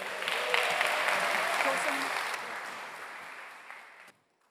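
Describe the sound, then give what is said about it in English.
Sustained audience applause welcoming a speaker to the stage. The dense clapping holds steady, then slowly thins and stops abruptly just before the end. “So please give a really warm welcome to Paul Cowley.”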